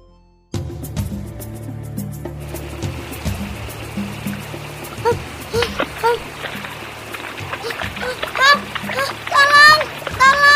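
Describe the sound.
Water splashes and streams as two small animals tumble into a river in a children's story, entering after a sustained musical tone, with the splashing growing louder toward the end.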